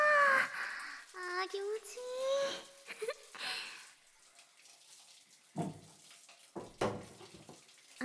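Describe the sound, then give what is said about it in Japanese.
Bathwater is poured to rinse someone's back. Lively talk comes first, then a few short, sloshing pours of water follow, separated by quieter pauses. “ここ座って、お背中流して差し上げまーす”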